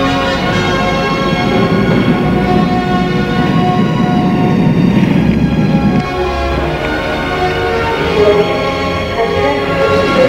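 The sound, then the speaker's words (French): A train at a railway station gives off a steady, loud, full rumble with sustained ringing tones layered on top. The sound continues without a break and eases slightly for a moment partway through. “Le lendemain matin, Cliff raccompagne sa mère à la gare.”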